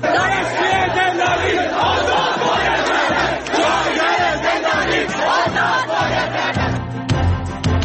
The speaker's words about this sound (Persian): گرده همایی های اعتراضی دانشجویان دانشگاه های ایران پیشاپیش روز دانشجو در ایران.